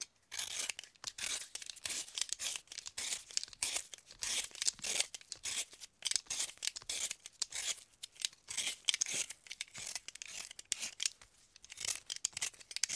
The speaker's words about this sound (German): Jetzt noch die Möhren schälen.